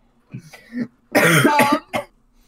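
Harsh coughing after accidentally inhaling saliva: a few small hacking coughs, then a loud sustained fit of coughing, ending in one short final cough.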